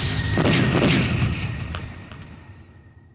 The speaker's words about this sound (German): Sie beschießen mich mit Artillerie.